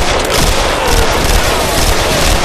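Loud, sustained gunfire from an auto rifle fired in tri-bursts during a close-quarters fight, forming a dense, unbroken crackle with no clear gaps between shots and no voices.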